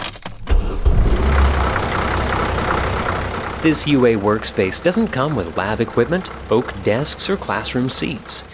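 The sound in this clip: Engine rumble of a university campus shuttle bus in motion, a steady low drone under the whole clip, alone at first and then with a voice talking over it.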